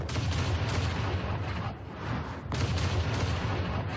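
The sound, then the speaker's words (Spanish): Cannons fire from behind the battlements of a defensive wall, a dense and continuous barrage of heavy booms and rumbling that dips briefly midway before surging back at full strength. “Detrás de las almenas de la muralla, los soldados lanzaban bombas de piedra y disparaban cañones.”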